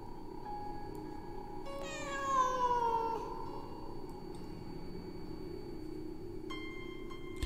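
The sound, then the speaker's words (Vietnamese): A cat wails outside a window, one drawn-out meow that slides downward in pitch over a faint steady hum, fairly quiet overall. “Ở bên ngoài vẫn vang lên tiếng con mèo kêu lên thảm thiết lắm.”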